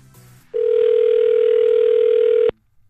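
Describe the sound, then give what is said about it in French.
A single steady ringback tone sounds as an outgoing phone call rings through: a flat, mid-pitched beep that holds for about two seconds on its own, then stops. “On appelle JM, on fait sonner chez JM.”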